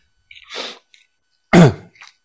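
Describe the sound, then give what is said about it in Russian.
Allergy coughing: two harsh, breathy bursts, a moderate one followed by a louder, sharper one, each trailed by a faint short puff of breath, with no talking. “These are allergies, in case you're wondering why I'm coughing.”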